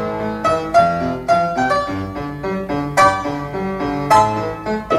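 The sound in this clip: An instrumental pop song melody played without singing, with bright harmonic tones over a steady rhythmic pulse and several accented beats recurring through the passage.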